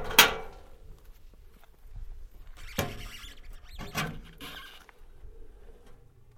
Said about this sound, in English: I opened and closed the gate while Claude recorded it.